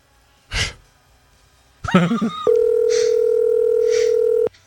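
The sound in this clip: A telephone is dialed for an outgoing call. A breathy sigh comes first, then a quick run of key tones, then a steady continuous line tone holds for about two seconds.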